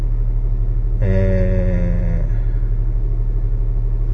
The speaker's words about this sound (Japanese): 今帰宅のために車にエンジンをかけましたね。ほんとさっきかけて